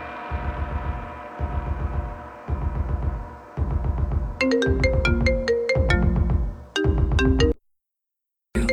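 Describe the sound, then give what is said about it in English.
A mobile phone ringtone goes off during a song on a radio show. A loud, repeating electronic melody plays in steady bursts, grows brighter and busier partway through, and then briefly cuts out near the end. “And I am so sorry that my phone went off in the middle of that.”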